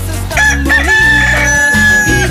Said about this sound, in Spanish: Así le canta mi gallo para que se motive y se anime en este día tan maravilloso.